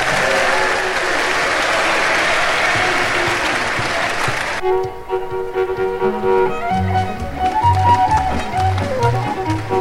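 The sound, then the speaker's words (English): Loud, steady audience applause at a square dance show fills the first half, then stops abruptly and gives way to lively music. “Give him a great big hand.”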